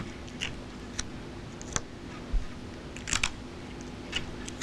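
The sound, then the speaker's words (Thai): Scissors snipping while cutting so the lower scale tips flare outward on their own: a few faint, sharp clicks spaced irregularly over a steady low hum, with no talking. “เมื่อเราตัดนะคะปลายเกล็ดด้านล่างจะบานออกเองนะคะ”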